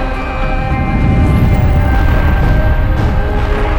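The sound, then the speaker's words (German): A loud explosion as torpedoes fired into space strike a space station, heard as a dense, continuous deep rumbling roar with a faint whooshing streak partway through, sustained at full strength to the end. “Wie flammende Lichtsperre rasten die Torpedos ins All hinaus und fügten der Raumstation schwere Schäden zu.”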